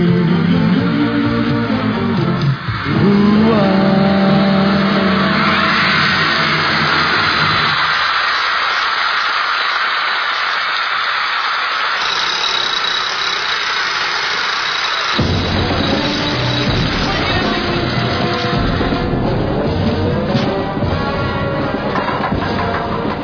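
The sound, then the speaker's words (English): Motorbike engines revving in a film escape scene, the bikes rigged for the stunt by a special effects crew: a loud, continuous engine roar with wavering, shifting tones that changes abruptly midway and stays dense throughout. “That was the escape. The bikes were rigged up by our special effects man, Nick Alder, who's done a lot of big pictures over the years in England. They escape on bikes.”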